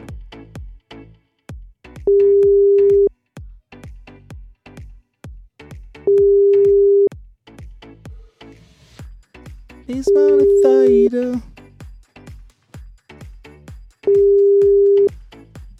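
Telephone ringing tone while a call is placed: four steady, evenly spaced tone bursts at a fixed mid pitch. They repeat every few seconds over a rhythmic clicking beat.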